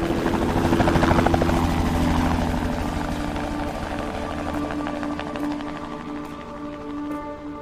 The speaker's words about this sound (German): Und dann ab in die Konservierung, per Hubschrauber.